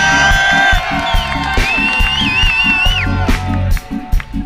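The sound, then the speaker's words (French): A concert crowd gives an ovation for a guitarist, with loud, sustained cheering and whooping that keeps up throughout and dips briefly near the end. “Du bruit, une ovation pour lui, s'il vous plaît.”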